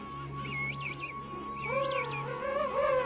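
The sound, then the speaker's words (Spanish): A year-old, woolly-downed penguin chick whistles, giving a few warbling calls that rise and fall in pitch, faint and repeated over a steady background tone. “Los padres son capaces de identificar a su polluelo por su silbido único.”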